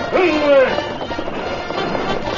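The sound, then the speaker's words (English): Galloping hoofbeats of a cavalry detachment sweeping around a bend in a canyon: a dense, continuous drumming of many horses that stays loud throughout, with voices mixed into the rush. “a detachment of cavalry swept around a bend in the canyon with a masked man in the lead.”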